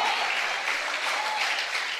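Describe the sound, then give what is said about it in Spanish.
An audience at a Spanish-language church service applauding: a dense, even wash of clapping from many people that holds steady for about two seconds. “Dele un aplauso al Señor, hombre.”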